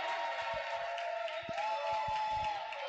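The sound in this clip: A crowd at a match jeers player Keita as he steps up for shots: steady, low-level noise from many voices, with a few soft low thumps.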